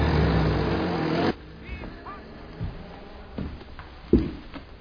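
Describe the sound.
A car engine roars loudly and steadily for just over a second, then cuts off abruptly to a quiet background with a few faint thumps and knocks.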